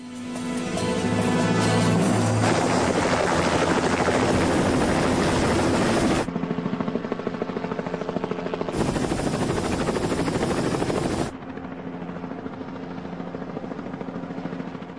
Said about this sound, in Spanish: se detienen al divisar el helicóptero en el cielo